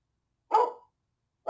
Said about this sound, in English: Studio dog giving us trouble. Studio dog.